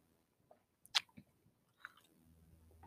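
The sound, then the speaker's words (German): Chewing on salami topped with sauce: a few soft, moist crunching bites and squelches, quiet and spaced out, with no talking over them. “Ich esse noch kurz eine Salami. Nicht scharf. Aber geht klar. Boah, lecker. Hm. Die Soße ist verdammt gut.”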